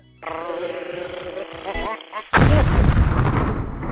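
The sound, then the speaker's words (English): An atomic bomb explosion sound effect: a wavering, tonal lead-in gives way to a sudden, loud, deep blast whose heavy rumble carries on to the end. “Oh, we got an atomic bomb. Yes, we dropped bombs.”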